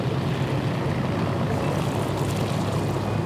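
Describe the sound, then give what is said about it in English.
A Twin Beech floatplane taxis on the water toward its mooring at a seaplane dock in Honolulu, its propeller engines making a continuous, even drone with a broad rumbling wash and no voices. “taxis the Twin Beach floatplane toward its mooring”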